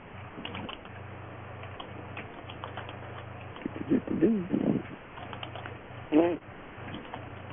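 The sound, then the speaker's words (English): Typing on a computer keyboard: scattered light key clicks over a thin, hissy phone line, with brief bits of voice. “Whoever's typing.”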